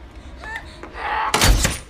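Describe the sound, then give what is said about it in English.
A hammer strikes a nail gun and fires a nail: one loud, sharp thunk near the end, preceded by fainter shuffling and a brief breathy sound, with no talk. “Jay strikes the nail gun with the hammer. It shoots a nail partway into Lars's forehead.”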